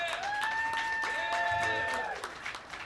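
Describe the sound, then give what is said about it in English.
Audience applause rises for the band the Teardrops at a jazz club, a steady wash of clapping heard alone for about three seconds beneath a sustained held tone. “Ladies and gentlemen, the real show is going to start. How about a hand for the Teardrops?”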